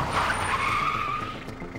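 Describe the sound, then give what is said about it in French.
Car tires skid to a sudden stop on the roadside, a high, screeching squeal that holds for about a second and a half before tapering off under a rough scraping hiss. “soudain donne un coup de volant et s'arrête en dérapage sur le bord de la route.”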